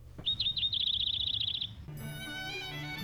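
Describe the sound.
A small nectar-eating bird gives a rapid, high-pitched trill of chirps for about a second and a half. A steady, lower tone then takes over.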